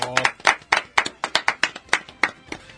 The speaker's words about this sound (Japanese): 拍手。